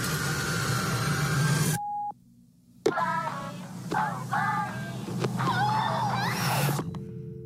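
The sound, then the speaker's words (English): A single short, steady answering-machine beep sounds right after a voicemail greeting, followed by a brief near-silence and then people talking. “please leave a message after the tone and we will get back to you.”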